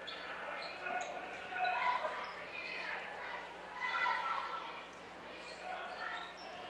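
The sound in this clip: A basketball is dribbled during a game, with faint, repeated bounces under continuous play-by-play commentary.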